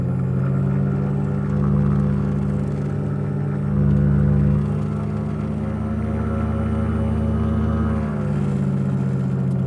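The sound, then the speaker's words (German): Steady engine drone of a motor glider being throttled up on the ground to turn, since it lacks a steerable tailwheel. A loud, even, harmonic hum swells slightly a couple of times with no talk over it. “So, jetzt müssen wir dann gleich rumdrehen. Dazu müssen wir Gas geben und drücken, weil ich kein lenkbares Spornrad habe.”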